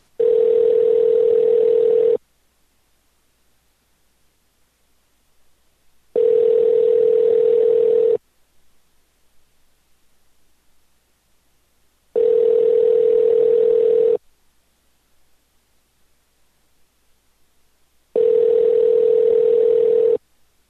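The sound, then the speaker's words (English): A telephone ringback tone sounds as a call is placed to a business number: four steady, loud two-second tones, each followed by a silent gap about twice as long, with no voices. “All right, let's give this number a call.”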